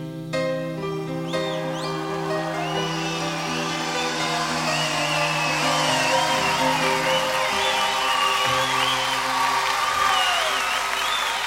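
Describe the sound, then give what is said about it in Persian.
Audience applause at a live music performance, steady clapping with whistles and cheers that continues throughout, after a held musical tone at the start. “به افتخار این دوستان عزیز من این دست خیلی قشنگی مرسی مرسی”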